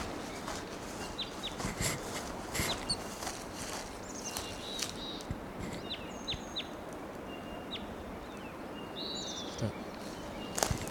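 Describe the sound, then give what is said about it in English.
Wild bird perched at the top of a tall tree gives faint, brief high chirps, scattered irregularly over a steady background hiss. “Approaching that wild bird. He's perched up on the top of a tall tree.”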